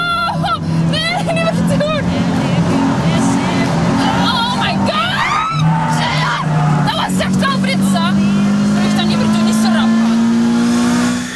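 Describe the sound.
Engine of a Lotus sports car revving on a local race circuit during a birthday test drive, a loud, continuous drone that climbs steadily in pitch toward the end, with people talking over it.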